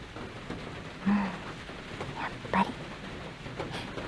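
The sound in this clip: Soft rain falling with a faint, steady hiss. A couple of brief, slightly louder bumps break the even patter.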